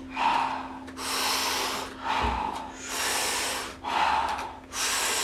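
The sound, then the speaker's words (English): Soft exhaled breaths come in a rhythmic, regular cycle, each a steady airy whoosh separated by short quieter gaps, several in a row. “Soft exhale. We do it rhythmically. We do it together. It sounds like this.”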